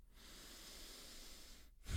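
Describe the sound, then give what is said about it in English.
A deep breath is drawn as a soft, airy hiss lasting about a second and a half, faint and alone, with no talk. “Deep breath.”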